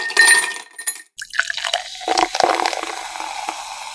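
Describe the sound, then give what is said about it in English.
Beers being cracked open for drinking: a few irregular bursts of glassy clinks, fizz and splashing liquid, with no voices. “Crack open the beers and let's get chugging.”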